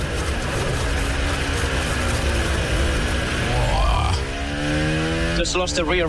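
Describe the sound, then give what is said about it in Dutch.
A racing car's engine revs as the car goes into a big drift at a corner. The engine note climbs in pitch beneath continuous excited commentary, and no clear tyre squeal can be made out. “Hier nogmaals dat moment van Antonelli richting de Kumo. Kan niemand schuld geven. En daar begint hij tegelijk een dikke drift.”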